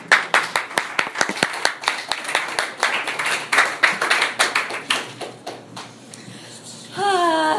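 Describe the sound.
An audience at a recovery meeting claps to welcome a speaker. Many sharp claps come in quick succession, then thin out and fade before a voice begins at the very end.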